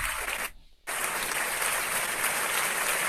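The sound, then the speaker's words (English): Dense, sustained applause from an audience giving a long standing ovation, a steady wash of many hands clapping, broken by a brief near-silent dropout just after the start before the clapping resumes at full strength. “yes, boy, it's a long standing ovation.”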